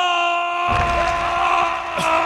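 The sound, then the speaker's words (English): A single voice imitates a cheering crowd, letting out a sustained, breathy roaring 'ahh' that holds loud and steady for about two seconds. “Crowd goes wild. Oh, my gosh. That took it all out of me just doing that.”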